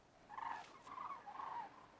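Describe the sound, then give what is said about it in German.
Cranes call in flight: three faint trumpeting calls follow one another over a quiet background. “Hier fliegen gerade Kraniche, mal sehen, ob man die hört.”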